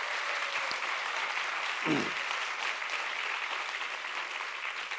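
Applause welcoming two panelists at an event on their recent books. A fairly faint, even wash of many hands clapping continues without a break and holds a steady level throughout.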